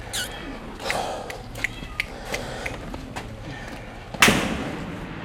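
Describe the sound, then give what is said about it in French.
Gunshots from police firing in an isolated area: faint, sharp pops at irregular intervals, then one louder, sharper crack near the end, all over a low background hiss. “Là, ça tire fort.”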